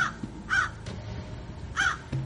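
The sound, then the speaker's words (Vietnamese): Black crow cawing: a few harsh, nasal caws spaced apart, fairly faint against a quiet background. “Một tiếng quạ đen trút lên từ đâu đó khiến cho anh Thạch giật thót mình.”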